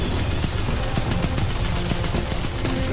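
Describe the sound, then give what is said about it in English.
Gunfire from shooting enemies in the video game Destiny 2, a loud, dense barrage of rapid overlapping shots and impacts running without pause, with no talking. “I'm gonna try and shoot them anyway.”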